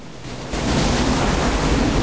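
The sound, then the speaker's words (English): Ocean waves break into white foam, a loud, broad rushing hiss that surges up after a brief quieter start and then holds steady. “He tumbles off, swallowed by a mass of white foam.”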